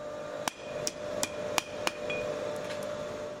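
Five sharp, ringing hammer blows from a seventh-generation blacksmith striking an anvil in a family workshop, landing at a steady pace over a low continuous hum, with a couple of much fainter taps near the end.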